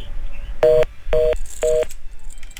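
Touch-tone beeps of a telephone number being dialed: three short, evenly spaced electronic tones, fairly loud and clear, with no voices.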